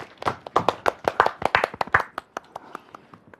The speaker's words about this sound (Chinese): 接下来我们掌声有请小奥哥哥。